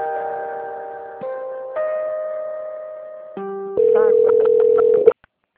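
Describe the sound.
Telephone line tones while a call is being transferred: a series of steady electronic tones that shift pitch in abrupt steps, ending in a louder, pulsing buzz that cuts off suddenly, followed by near silence.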